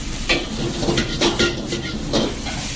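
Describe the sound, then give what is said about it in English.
Pad Thai rice noodles and egg fry in a wok with a constant hissing sizzle, broken by several louder scrapes and rustles of stirring. No one talks over it. “into the wok and cook together with the egg. This process is going to take about maybe close to two, three minutes until the noodle get very soft and cooked.”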